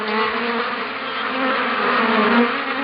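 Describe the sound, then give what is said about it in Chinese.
Honeybees kept in a strawberry greenhouse fill the air with a steady, dense buzzing hum that holds at an even loudness throughout, with no voices. “这个就是蜜蜂，我们每个大棚里都要放桶蜜蜂的。”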